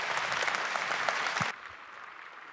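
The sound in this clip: An audience claps to welcome a speaker presenting a satellite ground-station project. The applause is dense and steady, then stops abruptly after about a second and a half, leaving low background noise.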